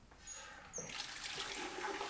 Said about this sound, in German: Ich weiß was Besseres als Schmutz. Wasser. Viel Wasser. Darf sie Wasser auf den Boden schütten, dann darf ich das auch.